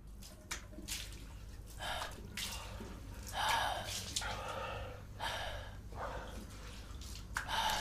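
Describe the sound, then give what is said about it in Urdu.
Water splashes as someone washes their face and hands, with repeated, irregular bursts of splashing over a low background hum. “اٹھو، اپنی حالت ٹھیک کرو۔ میں بھی ذرا منہ ہاتھ دھو لیتا ہوں۔”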